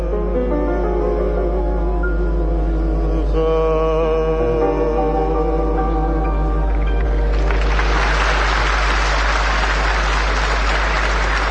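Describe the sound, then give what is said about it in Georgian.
A warm ovation bursts out after an accompanied musical performance, a loud, dense roar of applause that rises sharply as the sustained, tonal music ends and keeps going to the close. “ესე ოვაცია მოყვა თქვენს შესრულებას”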